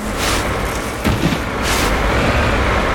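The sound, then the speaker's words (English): Engine rumble of a video game vehicle driving backwards, a steady broad noise with a thump partway through. “Okay, we're driving backwards, which Brian says is always the best plan. And now the game is deciding to flip us forward.”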